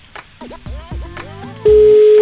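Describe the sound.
Ringing on an outgoing phone call: a loud, steady electronic tone comes in late and holds to the end, after softer warbling, gliding tones.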